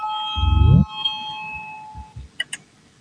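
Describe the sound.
An electronic bell sounds in the Latvian parliament to call a vote. A clear, steady tone sustains for about a second and a half before fading out, and a voice speaks briefly as it begins.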